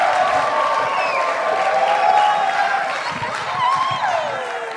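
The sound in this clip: A crowd cheers and applauds as a speaker comes out at an evening gathering, with whoops and shouts rising over a steady wash of clapping.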